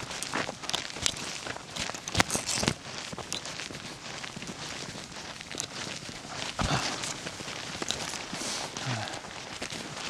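Footsteps of someone hiking along a trail in Uppland: many steady, crunching steps in a regular walking rhythm, continuing throughout at a moderate level.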